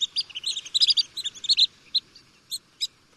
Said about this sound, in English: Here's the high-pitched call of the long-billed dowitcher.